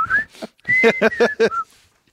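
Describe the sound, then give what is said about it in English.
A person whistles a short tune of several clear, fairly loud notes over about two seconds, with no other sound around it. “the whistling that he does is the North Carolina fight song”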